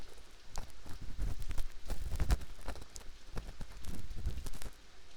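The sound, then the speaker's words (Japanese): An ear pick scrapes and taps inside an ear during cleaning, giving many soft, uneven scratchy thumps and rustles in an irregular rhythm, faint and close with no talking. “しながらお掃除するね。こうして耳かき棒で。”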